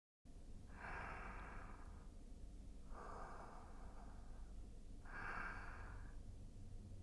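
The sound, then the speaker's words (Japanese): Slow inhaling through the nose during a guided breathing exercise: three long, soft, airy breaths, faint against a steady low background noise. “鼻からゆっくりと吸って、”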